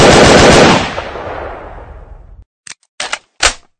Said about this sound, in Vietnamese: Tên ngồi ở mũi xuồng bắn răng ngay một loạt tiểu liền.